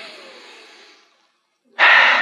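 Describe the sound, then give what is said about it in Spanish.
A deep breath taken during a guided breathing exercise: a soft, airy breath fades away over about a second, then after a short silence a louder, sharper rush of air starts and holds steady. “Respira profundo conmigo.”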